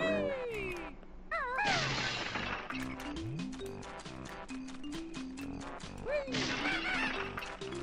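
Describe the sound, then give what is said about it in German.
A giant egg being smashed in a video game, heard as bright cracking bursts near the start and again near the end, set against busy game music with a steady melody and chirpy tonal effects. “Und das ist hier ein riesiges Ei, das müssen wir noch kaputt machen.”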